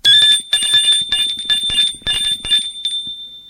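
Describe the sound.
A doorbell rings at a home: bright, rapid metallic ringing with many quick strikes that blur into a shimmering tone for over three seconds, thinning out near the end.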